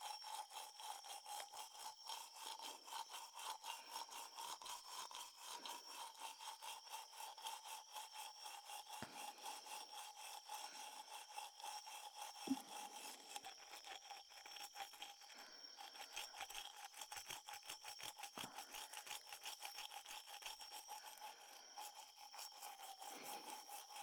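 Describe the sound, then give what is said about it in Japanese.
Something is being polished with quiet, fast, steady back-and-forth rubbing strokes that continue without pause from start to finish. “慣れておりませんので、もしも変なところを磨いてましたら教えてくださいね。”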